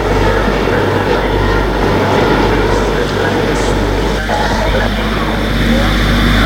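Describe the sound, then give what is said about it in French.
A train arriving at a station makes a loud, steady low rumble with a broad roaring wash of noise that continues without a break. “Le train arrive en gare.”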